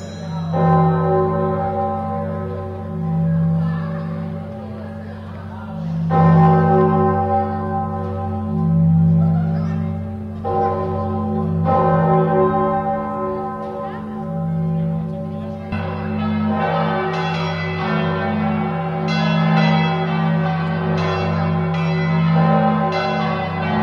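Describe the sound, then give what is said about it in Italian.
A fifteenth-century church bell cast in 1474 rings from a civic tower in Bergamo, with a few loud strikes, each followed by a long, humming resonance that overlaps the next. “Torre Civica di Bergamo, dove troviamo appunto una delle campane quattrocentesche meglio conservate, che è la campana del 1474, fusa da Gasparino da Vicenza.”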